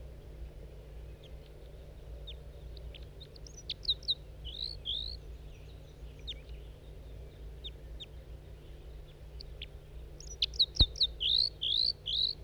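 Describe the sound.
A wild male bird calls in two bursts of high, sharp chirps, the second burst busier and more rapidly repeated, over a faint steady background hum.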